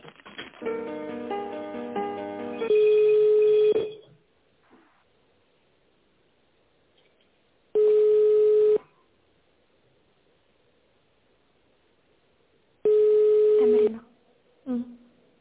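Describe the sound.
Ringback tone of an unanswered telephone call: three steady, mid-pitched one-second tones separated by long silent gaps. A voice and other sounds are heard briefly at the start.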